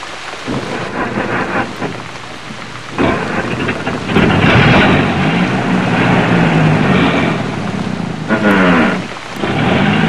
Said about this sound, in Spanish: Está lloviendo y podemos chocar.